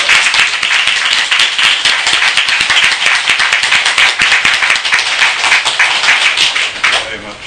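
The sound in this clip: An audience applauds to welcome a speaker with loud, dense, sustained clapping that continues steadily and thins slightly at the very end.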